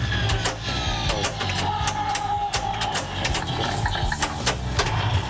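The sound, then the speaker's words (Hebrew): Mechanical clatter from a 1970 pinball machine: a dense, steady stream of rapid clicks and rattles over a low hum, fairly loud and continuous throughout. “זאת מכונה מ-1970, תחילת הפליפרים בעולם, וזה שוק מטורף, מטורף.”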